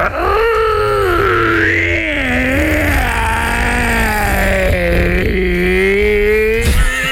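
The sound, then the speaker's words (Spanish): A human voice imitates a hoarse wolf howl, a loud, rasping, drawn-out tone whose pitch wavers and slides up and down, strained and throaty for several seconds. “Hacía un aullido como si fuera un lobo. ¿Cómo? Pero un lobo ronco, así como con problemas en la garganta.”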